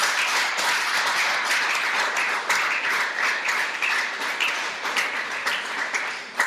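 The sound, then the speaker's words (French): Steady, dense applause from a church audience acclaiming the Lord: many hands clap in a continuous wash that holds an even loudness from start to finish. “Est-ce qu'on peut acclamer le Seigneur pour Dieu?”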